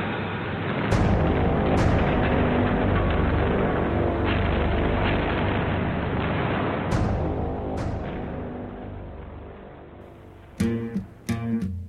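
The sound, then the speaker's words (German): Artillery fire shelling open terrain: a continuous heavy rumble broken by several sharp booming blasts, ending in a quick cluster of sudden loud bursts. “Der Feind tastet das Gelände mit Artillerie ab.”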